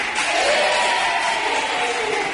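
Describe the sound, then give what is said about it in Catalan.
Schoolchildren at a school radio gathering applaud and cheer their classmates. The clapping is dense and steady, with high young voices cheering through it. “Gràcies pels aplaudiments i els ànims als companys.”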